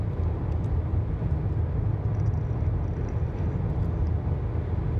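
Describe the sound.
Steady low engine and road rumble from a car being driven, a continuous even drone with no breaks and no talk.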